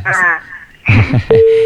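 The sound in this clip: A telephone disconnect tone as a call drops: a short, steady electronic tone near the end, after a brief voice and some other noise.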